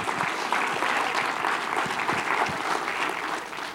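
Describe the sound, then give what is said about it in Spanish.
A church audience applauds during a bilingual sermon, producing a continuous, even patter of many hands clapping that tapers slightly at the close. “¿Por qué no se da un aplauso?”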